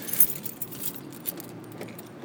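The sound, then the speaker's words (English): Keys jangle and clink while someone unlocks an Xterra, a few light metallic jingles scattered through a quiet moment with no talking. “Need to unlock the vehicle so I can get in it.”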